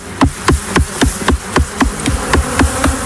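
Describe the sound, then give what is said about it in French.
A large, plump male honeybee drone, apparently agitated, buzzes loudly with a steady run of many sharp, evenly spaced pulses and no voices. “Ça, c'est un mâle. Vous voyez, il est gros. Il est dodu. Il a des gros yeux. Ça, c'est pour voir la reine, si jamais il y a une reine vierge qui sort d'une ruche, pour aller la féconder.”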